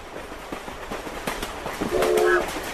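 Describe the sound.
A train rolls along with a rhythmic clickety-clack of wheels on the rails, the rattling beats spaced evenly, and a short whistle-like tone sounds near the end.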